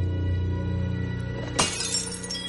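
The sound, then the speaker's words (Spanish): A drinking glass smashes against the edge of a desk in one sudden, bright shattering crash, with fragments settling briefly over a steady tonal background. “Rompe el vaso contra el borde del escritorio.”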